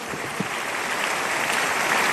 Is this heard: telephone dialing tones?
no